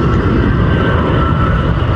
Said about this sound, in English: So I'll just watch this British Airways Airbus come in,